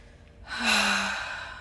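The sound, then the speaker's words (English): A long, breathy exhale during a breath-work exercise, starting after a brief quiet moment, swelling into a loud airy rush with a faint voiced hum, then slowly tapering off. “Make sure you let that stale energy go before we do anything. Exhale it out.”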